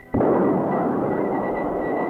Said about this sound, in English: At the moment of launching, the Bomarc missile receives instructions from the IBM computer. As the missile screams toward target, radar keeps on tracking.